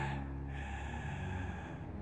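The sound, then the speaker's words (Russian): Kylo Ren of Star Wars breathes heavily in an elevator while trembling and tearful, a faint, ragged gasp and breath that continues for about two seconds. “Кайло Рен в лифте, его трясет. Тяжело дыша, со слезами на глазах, он сжимает в руке свой жесткий черный шлем.”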